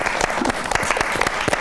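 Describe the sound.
Audience applause at a poetry reading, made of distinct, sharp hand claps in a lively, irregular patter that stays at a steady level.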